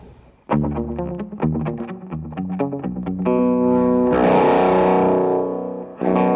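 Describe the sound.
An electric guitar played with distortion gain at a lower volume strikes a quick run of punchy picked notes. It then rings out in sustained, buzzing chords that swell louder before a final fresh attack.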